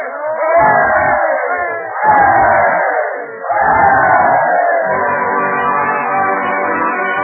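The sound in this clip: A crowd gives three rousing cheers, three loud massed shouts in a row, the last one held longer and fading gradually.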